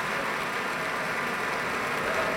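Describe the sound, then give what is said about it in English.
Concert audience applause for a symphony orchestra and its conductor after a performance: continuous, fairly faint clapping with an even, unbroken texture. “Continuing applause for Alexander Shelley and the Pacific Symphony.”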